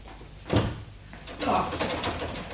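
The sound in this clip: In a radio drama, someone tries a locked bedroom door, and the handle and door give two dull, rattling knocks a second apart over a low background murmur.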